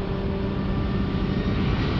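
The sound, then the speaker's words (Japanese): Steady drone inside an airplane in flight to America: an even, low rumbling hum with a faint tonal whine and no voices. “3日後、俺はアメリカ行きの飛行機の中に。”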